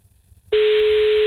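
A telephone line rings while a call is placed, one steady, loud electronic tone that starts abruptly after a moment of near-silence and holds unbroken to the end.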